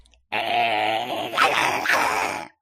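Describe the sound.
A small lapdog growls in one sustained, tonal snarl of a little over two seconds. It swells in a couple of short surges near the end before stopping abruptly.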